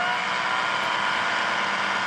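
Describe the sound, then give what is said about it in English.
An engine drones steadily in first gear, giving a constant mid-pitched mechanical hum at an even level, with no clear rise in revs. “This thing has about 5 gears in it. Well, this is first gear,”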